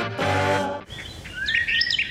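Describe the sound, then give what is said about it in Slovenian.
Small birds chirp in quick, high twittering notes, with several bright chirps clustering toward the end. “Že ptički čivkajo, kaj se maja dogaja.”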